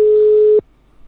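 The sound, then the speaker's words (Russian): A telephone call tone plays as one steady, mid-pitched beep lasting just over half a second, then cuts off abruptly into near silence. “Так, сейчас еще раз наберу. Еще один номер.”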